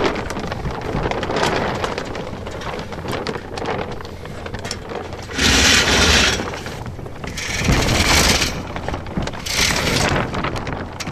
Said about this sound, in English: So that's the sound of grain.